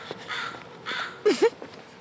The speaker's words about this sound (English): Up with the crows.